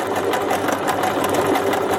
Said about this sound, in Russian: Сейчас мы шьем вот такие вот красивые наши украинские флаги